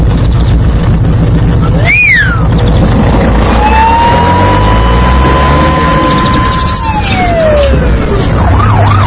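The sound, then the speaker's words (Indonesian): A patrolling police car drives past with its siren wailing, first in a quick rising-and-falling sweep, then as a long steady tone that drops in pitch as it goes by, over loud traffic rumble. “Masya Allah, ada mobil polisi yang sedang patroli teman-teman.”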